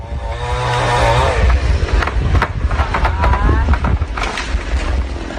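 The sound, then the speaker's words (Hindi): A motor-driven saw cuts down a large, green tree in Mumbai's Aarey Colony. Its engine drones and revs loud and rough throughout, with a steady mechanical roar and surges of power. “Motor से चल रही आरा machine ने चंद second में ही भारी भरकम हरे भरे पेड़ को धराशायी कर दिया।”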